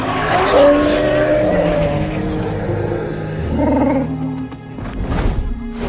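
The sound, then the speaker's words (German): Dragons roaring together and taking off into the air, in an animated fantasy tale: a loud, continuous, layered roar with a rumbling low body and rasping upper tones, swelling midway and holding strong for the full six seconds. “Dann brüllte ohne Zahn zum Aufbruch. Alle Drachen stimmten mit ein und erhoben sich in die Lüfte.”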